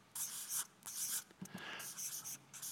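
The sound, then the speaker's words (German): Handwriting a single word produces many short scratchy strokes in quick succession, broken by brief pauses, with no talk. “Und das Dritte ist, ich schreibe jetzt einfach mal das Wort Versöhnung.”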